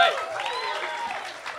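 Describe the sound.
Brief audience applause greets a returning guest, a short burst of clapping with a voice over it, lasting under two seconds at a fairly even loudness.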